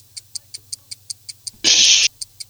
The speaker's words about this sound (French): le chronomètre démarrera à la fin de la première question que voici.